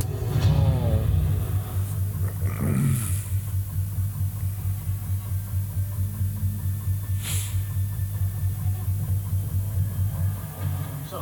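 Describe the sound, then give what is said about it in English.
Speeder bike engines at a base give a steady, low, humming rumble throughout, with a couple of brief whooshing surges layered on top. “Speeder bikes?”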